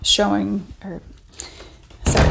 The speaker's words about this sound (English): I'm shutting my door because I hear somebody coming up the steps.